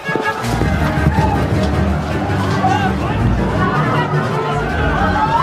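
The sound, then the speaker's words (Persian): Chaotic crowd hubbub in a bazaar where people are fleeing. Many voices blend into a dense, continuous babble with no single voice standing out. “در بازار هرج و مرج شده و هر کسی به سوی فرار.”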